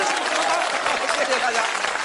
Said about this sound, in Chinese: 大家为您鼓掌， 为我？ 为您鼓掌。